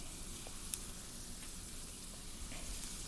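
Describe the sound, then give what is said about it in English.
Food sizzling as it fries in a hot pan over reduced heat, searing to cook its bottoms: a faint, continuous hiss holds steady throughout, broken by a few tiny crackling pops. “And then I'm going to take these guys, and you can hear the sizzle. And this is how we're going to just get the bottoms cooked.”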